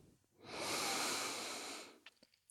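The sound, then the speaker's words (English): A single long, deep breath drawn in through the nose during a standing guided meditation, a loud, steady airy rush lasting about a second and a half before fading, followed by a few faint small clicks. “Another full deep breath in through the nose.”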